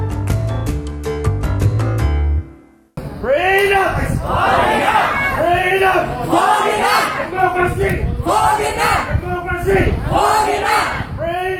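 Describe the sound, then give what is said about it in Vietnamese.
A crowd chants in unison at a Saturday night candlelight vigil in Federation Square, Melbourne, held for Trần Huỳnh Duy Thức by a Vietnamese alumni association. A short stretch of tonal music cuts off, then loud, rhythmic shouting continues. “Đó là âm thanh của đêm thắp nến tối thứ Bảy ngày 15 tháng 9 ở Melbourne, cầu an cho ông Trần Huỳnh Duy Thức tại Federation Square của Hội Cựu Sinh viên Việt Nam.”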